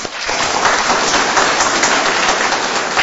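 Loud, dense applause breaks out for a woman's 79th birthday, a continuous patter of many hands clapping at an even level, with no voices over it.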